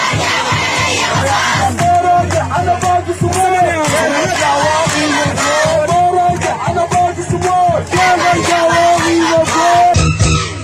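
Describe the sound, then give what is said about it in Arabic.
Protesters chanting slogans in Khartoum during a mass demonstration: a loud, dense crowd of voices yelling and chanting together, sustained and rhythmic, with shouts rising above the massed roar throughout. “وردد المتظاهرون هتافات متنوعة في هذا الخصوص.”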